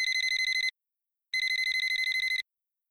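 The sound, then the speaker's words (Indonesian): Telephone ringing in two bursts of rapid, high trilling rings with a short silence between them. The second burst is longer, and no voices are heard. “Bentar ya, ada telpon.”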